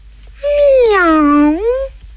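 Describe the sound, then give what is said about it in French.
A voice imitates a cat's meow in one drawn-out, moderately loud call whose pitch dips low in the middle and rises again at the end. “C'est alors que le chat vient se frotter aux jambes de la femme en ronronnant. Miaou,”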